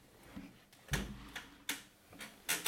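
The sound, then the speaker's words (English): An office chair creaks as someone sits back in it, producing a series of about seven sharp creaks and clicks at an uneven rhythm, with no talk. “if I just sit back on my chair right now, I'm just gonna do that.”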